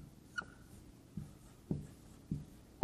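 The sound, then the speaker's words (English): A pen or marker draws a short line in a few faint, quick scratchy strokes. The strokes are spaced apart over a quiet background. “But what we have is, I'm drawing this little line. This is to represent 7 years.”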